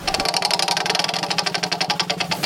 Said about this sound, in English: Okay, I'm going to spin the wheel.